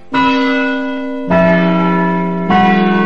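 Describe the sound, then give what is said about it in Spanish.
A clock chiming at night during Cinderella's ball, sounding three deep, resonant bell strokes evenly spaced about a second apart. Each strike rings with a long, humming sustain, and the second and third are slightly lower in pitch than the first. “Pero con el paso de la noche, el reloj empezó a sonar.”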